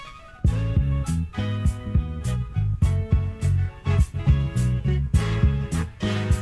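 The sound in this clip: A jazzy 1974 music sample plays alone: a steady groove with many regular beats over sustained bass and chord tones, loud throughout.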